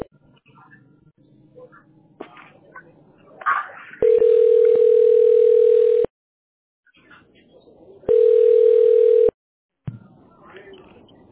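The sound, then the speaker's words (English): A telephone line tone sounds while dialing a call to a tax specialist, two long, steady, mid-pitched tones separated by a silent gap, with faint murmuring sounds before and after them. “Okay, we're dialing the tax specialist.”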